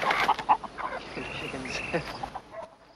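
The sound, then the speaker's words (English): A chicken clucking: a run of irregular, squawky clucks, loudest at the start and trailing off quieter toward the end. “He heads off, tripping over a chicken.”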